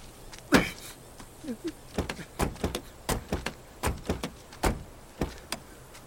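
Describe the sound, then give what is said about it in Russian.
Car door slammed again and again, a quick series of many sharp, faint thuds with short gaps between them before someone settles into the back seat. “несколько раз хлопает дверью и садится на заднее сиденье.”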